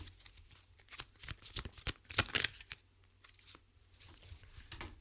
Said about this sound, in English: So I've basically drawn out four cards for three sections.